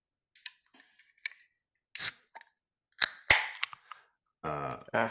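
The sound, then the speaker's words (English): A beer can being cracked open with a tab set close to the top: a few sharp clicks and metallic snaps as the tab is worked, then a louder crack with a brief hiss, and a short voiced sound at the end. “Great, let's crack this open.”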